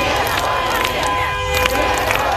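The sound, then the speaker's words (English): An anti-war protest crowd in Moscow chants "no to war", a dense mass of voices with held, rising and falling tones over a steady roar of crowd noise. “Anti-war demonstrations staged in cities across Russia, including Moscow, where the crowd chanted no to war.”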